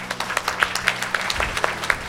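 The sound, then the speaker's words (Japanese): Audience applause welcoming a company's investor relations manager onto the stage at an investor presentation: a modest crowd claps steadily, with individual sharp claps standing out from the even patter. “皆様拍手でお迎えください。”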